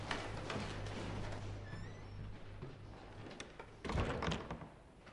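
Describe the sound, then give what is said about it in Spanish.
A house door is closed with a single dull thump near the end, after a quiet stretch of low hum and faint rustling, with no voices. “cierra la puerta de la casa”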